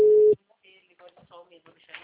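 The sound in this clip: A single short, steady telephone tone from an outgoing call sounds loudly, then stops and people start talking.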